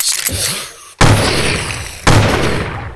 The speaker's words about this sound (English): You think they heard it out there? I don't know. These guns aren't very loud, surprisingly, for as big as they are.